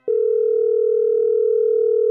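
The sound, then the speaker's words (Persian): Telephone tone while calling a friend: one loud, unbroken, steady low tone that starts abruptly and holds evenly for about two seconds before cutting off. “من اون کار رو قبول کردم و به دوستم تری تلفن زدم.”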